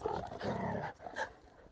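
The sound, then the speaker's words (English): Dogs fighting in a rural area of Judea and Samaria, with faint harsh snarls and growls in short, overlapping bursts and a brief break in the middle. “These are my dogs fighting, if you can hear it.”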